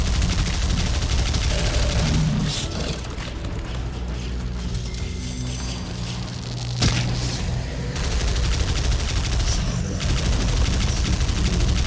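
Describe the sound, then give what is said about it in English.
Enemy gunfire in a video game: dense, rapid volleys of shots crackle continuously and loudly throughout, with a sharp louder burst partway through. “Shooting me! I hate these projectile attacking people.”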